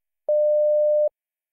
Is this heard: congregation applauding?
no